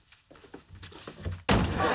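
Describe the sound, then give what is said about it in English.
A door slammed shut in someone's face, a sudden loud bang cutting in right after a stretch of talk and followed by a dense rush of noise to the end. “She slams the door in his face.”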